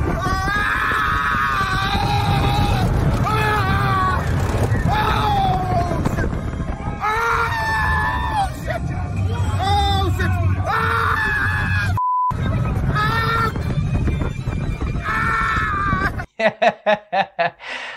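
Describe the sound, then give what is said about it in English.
Riders scream, yell and laugh throughout a roller coaster ride, with many overlapping shrieks and whoops over a constant rushing rumble, then a few sharp pulsing bursts near the end. “this is a clip from us riding a roller coaster before coronavirus.”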